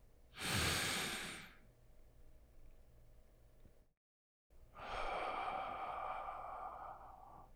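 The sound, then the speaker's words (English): A deep breath: a short, breathy inhale, then a pause of near silence, then a long, steady, airy exhale lasting about three seconds, soft against a low background hiss. “Take a breath, then exhale.”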